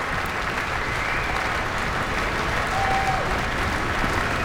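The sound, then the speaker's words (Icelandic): Sustained applause from a concert audience as the soloists, conductor and orchestra take their bows after the performance, dense and even clapping that holds steady at a moderate level without any pause. “Já, fagnaðlátunum linnir engan veginn hér.”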